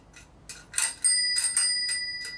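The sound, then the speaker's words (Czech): A small bicycle bell, just lubricated with silicone oil, rings in many quick, bright metallic strikes. Its high tones overlap and sustain as the bell is struck repeatedly without pause. “Tak jo, začneme tím zvonečkem, si ho rozezníme, trošku ho promážeme silikonovým olejem.”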